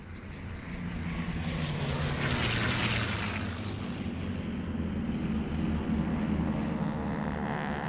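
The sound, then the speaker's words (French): Two airplanes fly overhead with a continuous low engine drone. A broad rushing roar swells toward the middle, then eases while the rumble carries on. “Soudain, il voit deux avions dans le ciel.”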